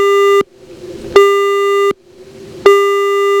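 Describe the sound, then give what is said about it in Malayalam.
Disconnected-line tone after a phone call is cut off: a steady, mid-pitched electronic beep that repeats in an even on-off pattern, with about three loud bursts separated by short gaps and no talking. “നമ്മുടെ collar കട്ടായി പോയെന്ന് തോന്നുന്നു.”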